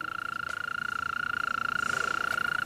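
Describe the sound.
A mole cricket sings with its forewings, a continuous, rapidly pulsed trill held at one steady, fairly high pitch. The buzzing stays moderately loud and unbroken throughout, with no voices.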